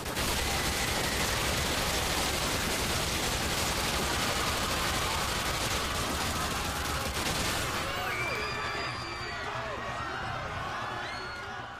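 Gunfire in a video game airport level, a dense and unbroken barrage of shots that stays loud throughout and thins slightly near the end.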